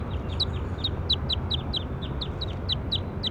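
Many short, high bird chirps repeat in a steady series over a low, constant rumble, with no talk.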